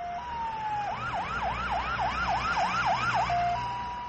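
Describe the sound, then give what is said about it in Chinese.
An ambulance siren sounds a steady tone, breaks into a rapid run of swooping rising and falling wails, then returns to the steady tone, loud and alone. “救护车!”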